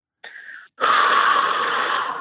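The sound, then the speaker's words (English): A deep, airy exhale, released after a brief first puff and short pause, then breathed out steadily and fairly loud for over a second, with no talk over it. “And exhale, because I can feel it on you. Exhale out.”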